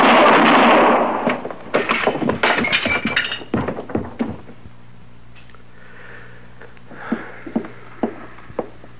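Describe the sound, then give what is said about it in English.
A loud gunshot blast opens a Western standoff, followed by a run of sharp clattering knocks and breaking crashes, then a few faint, spaced thuds as the noise settles. “You got him, Mr. Dillon. Yeah. Well, anybody can shoot a man”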